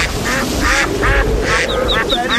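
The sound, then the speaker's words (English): Ducks caught in a storm quack loudly in many rapid, nasal bursts over a continuous low rumble. “live from some ducks that have been caught in a storm.”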